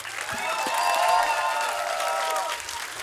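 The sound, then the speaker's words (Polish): About 150 people in a live concert audience applaud. The clapping is dense and steady, holds loud throughout, and eases slightly at the end. “nie widzieliśmy czegoś takiego, żeby 150 osób klaskało na 7/4.”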